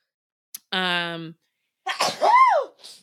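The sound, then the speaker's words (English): A forceful human sneeze: a brief click, then a drawn-out voiced intake, then a loud explosive burst with a pitched cry that rises and falls, followed by a short breathy tail. “Bless you. That was an aggressive sneeze.”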